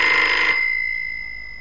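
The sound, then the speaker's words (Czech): A telephone bell rings in one short, bright burst, then its metallic tone lingers and slowly fades into quiet, with no voices. “telefon. Haló?”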